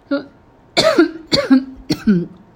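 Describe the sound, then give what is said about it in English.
A person coughs a few times in quick succession, each a harsh, loud burst with a short voiced tail, separated by brief pauses. “by the way, this is just a regular cough.”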